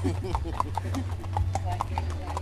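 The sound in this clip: Horse hooves clip-clop steadily as a horse is ridden at a busy evening event with music, giving many crisp, even-paced strikes over a low constant hum, with voices in the background.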